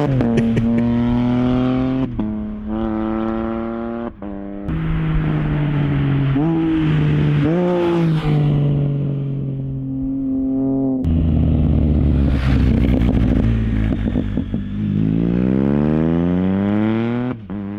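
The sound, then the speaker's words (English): Spider F3 motorcycle with an aftermarket exhaust and catalytic converter delete revving, loud with repeated rising and falling revs, a few quick blips, then a longer run climbing in pitch near the end. “let's play his beloved Spider F3. And this one has an aftermarket exhaust from guess who? And also a cat delete.”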